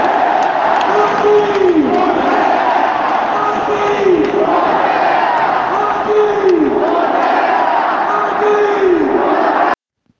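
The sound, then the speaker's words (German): A stadium crowd roars for Joaquín Correa's 3-0 goal against Monza, scored after a solo run across half the pitch. The cheer stays loud and sustained with recurring swells, then cuts off abruptly just before the end. “Ihr könntet gerade das Highlight des Spiels hören, den 3:0-Treffer durch Joaquin Correa, der die Kraft hatte, nach einem überragenden Solo über den halben Platz noch die Kugel oben ins Eck einzuschweißen”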